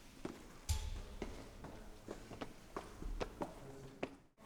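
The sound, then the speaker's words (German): Faint footsteps while walking through the Linden Museum, a series of soft, fairly regular steps with light taps and rustles in between. “Wir sind mal gemeinsam durchs Lindenmuseum gelaufen und haben einfach ein Mikro dabei gehabt und alle möglichen Geräusche aufgenommen, die wir da gehört haben.”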